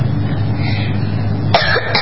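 A single short cough from someone with dirt in the throat after playing on a dirt field turned into a tennis court. It comes near the end, over a steady low hum.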